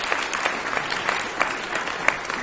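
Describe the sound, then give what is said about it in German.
Applause from an audience: dense, steady clapping that stays fairly even in loudness for about two and a half seconds, with a few sharper claps standing out. “Applaus.”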